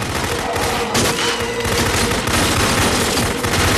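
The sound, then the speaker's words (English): Rapid, continuous gunfire comes from a full-auto shotgun in an action film scene. Dense, loud bursts run without a break for the whole clip. “Terry Crews, Expendables, full auto shotgun. Is this it right here? Yep, that would be it.”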